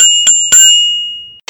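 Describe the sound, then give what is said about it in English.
A bicycle-style bell, used as the chime for a passed bill, rings three quick, bright strikes. The last strike sustains and fades for about a second. “The bell means the bill had passed, and the buzzer means it had failed.”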